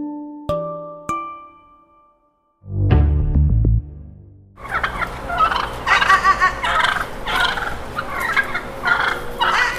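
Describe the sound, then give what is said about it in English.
Two wild turkeys gobbling in an urban neighbourhood: after a short low rumbling burst, loud, rapid rattling gobbles carry on continuously, with no voices. “What you're hearing are wild turkeys. Two wild turkeys have been roaming around the NDG burrow since late 2024.”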